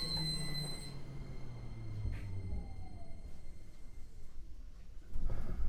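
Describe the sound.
A commuter train riding on its rails, heard from inside the carriage: a steady low rumble with faint tonal hums running throughout, swelling louder near the end.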